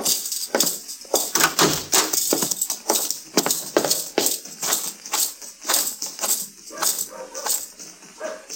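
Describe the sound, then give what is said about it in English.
Hoofbeats of a horse being led up a street, a steady walking rhythm of many sharp clip-clop strikes with no voices. “Ellen Henry's riding up the street leading my horse”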